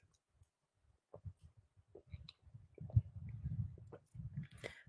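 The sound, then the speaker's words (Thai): A man takes a little drink of water, making quiet sips and gulps with soft wet clicks. The sounds are sparse at first, then more frequent, with no talking. “ดื่มน้ำนิดหนึ่งนะครับ”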